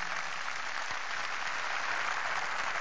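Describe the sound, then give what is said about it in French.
An audience applauds a Senegalese footballer in a steady, even wash of clapping that stays at a moderate level with no breaks. “Je voudrais que vous l'applaudissiez”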